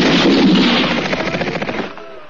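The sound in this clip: Gunfire from a firing squad erupts as a dense, loud roar that breaks into rapid, rattling pulses and then dies away to quiet.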